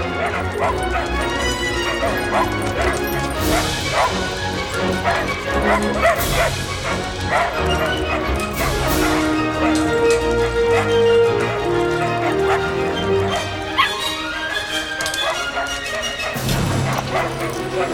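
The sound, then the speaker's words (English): Dogs and puppies yip, whimper and bark in many quick overlapping calls, the dogs racing across metal beams onto a landing while puppies mill about below, all set within dense, continuous music. “Inside, in the blue evening light, the dogs race across metal beams and onto a landing. Puppies mill around on the second lower landing.”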